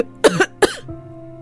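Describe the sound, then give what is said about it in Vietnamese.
Harsh coughing from an old man who coughs up blood and then collapses, heard as two quick, loud, raspy bursts close together, followed by quiet. “đột nhiên ho ra máu rồi ngã vật xuống đất”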